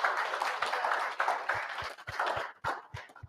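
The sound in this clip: Applause welcoming a speaker at Henrico Jail West: a busy patter of clapping with sharper single claps popping out, thinning and breaking up toward the end.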